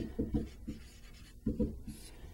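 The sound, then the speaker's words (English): Scratchy pen strokes as the steps of a related rates math problem are written out: short bursts of scraping in two clusters separated by a quieter pause, with no talking. “Now we did this in the problem already, but I want to write it all out here.”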